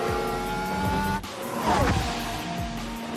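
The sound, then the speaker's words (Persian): A Formula 1 car's engine screams loudly as it starts a fast qualifying lap, its dense, shifting harmonic whine holding strong throughout with a brief dip partway through. “دور بعدی فشار بیارم. همیلتون دورشو شروع میکنه.”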